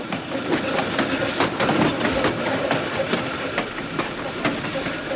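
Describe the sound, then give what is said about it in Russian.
A train approaching a station gives a steady rolling rumble with a faint rhythmic clatter of wheels on rail joints. The sound stays at an even, moderate loudness throughout. “Поезд на подходе к Блю-Риверу.”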